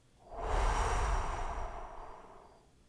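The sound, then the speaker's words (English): One long, deep breath is blown out in a soft, breathy whoosh that swells quickly and then fades slowly over about two seconds, heard alone without talk. “I invite you to take a long, deep breath and blow.”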